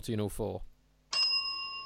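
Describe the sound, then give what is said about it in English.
A synthetic electronic bell rings once after a stretch of talk. The bright, high tone starts sharply and keeps ringing steadily to the end. “No, I haven't got my bell ready, but I do have a synthetic bell, so fire away.”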